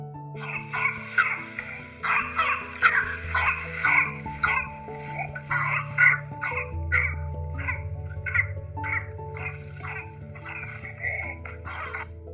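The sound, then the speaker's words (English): Whooping cough from pertussis: repeated bursts of harsh coughing in clustered series, each run followed by a long high-pitched inspiratory whoop, fairly loud, with pauses between spells and no speech. “This cough is characterized with a series of cough followed by an inspiratory whoop and postussive vomiting.”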